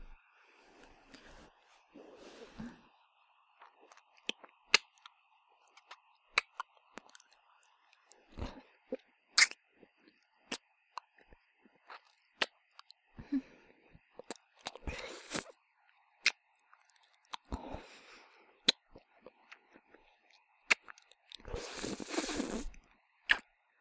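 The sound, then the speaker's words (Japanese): Kissing sounds: many short, wet lip smacks scattered irregularly, quiet overall, with a few longer, breathier bursts between them. “いつもやったらもう数えきれんくらいいっぱいチューしてるもんね。もう一回ね。”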